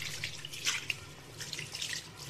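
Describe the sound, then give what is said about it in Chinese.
Tap water runs while someone washes their hands, a steady soft hiss with irregular splashing and spattering over it, fairly faint. “你洗手了吗？伸手就抓。 忘了，我现在就去洗。”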